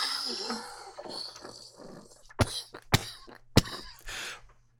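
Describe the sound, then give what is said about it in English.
Three sharp, abrupt coughs follow a stretch of quieter breathy sounds after smoking cannabis flower. “See, now with that bit of cough, that just took me to the next level.”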